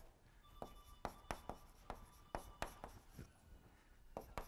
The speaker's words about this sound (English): if I write really small, you can't tell I haven't actually written all their names.